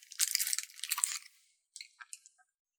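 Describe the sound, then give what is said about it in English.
Crunchy food being bitten and chewed: a bright, crackling crunch for about a second, followed by a few softer, brief crunches. “Okay, listen, I want to eat this.”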